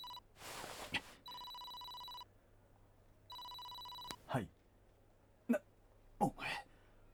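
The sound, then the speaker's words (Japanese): A phone rings with an incoming call: bursts of bright, buzzy electronic trilling come as two full rings separated by a pause, with short throaty vocal noises and gasps around them. “なんだ一体、着信？”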